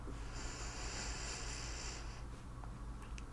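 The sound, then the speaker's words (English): A deep breath in during a stethoscope chest exam: one slow, airy inhale lasting about two seconds, a soft steady hiss that then fades, faint and with no talk. “I'm just gonna be placing this right here on your chest. And can I get you to take a deep breath in for me?”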